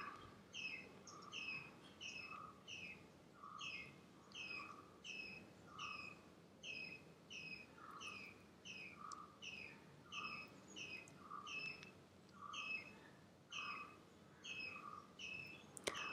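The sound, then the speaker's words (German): Faint, high bird whistling repeats as many short chirps in an even rhythm, continuing steadily with no talk. “ein Vogel, der pfeift.”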